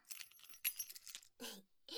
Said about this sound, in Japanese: これなんでしょ。これはここの鍵だよ。実はね、鍵持ってたからいつでも帰れたんだよね。